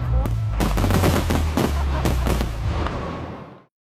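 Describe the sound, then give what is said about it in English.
A gunshots sound effect: many loud, sharp shots fire in rapid, uneven bursts over a low rumble, then cut off abruptly near the end. “Shots fired.”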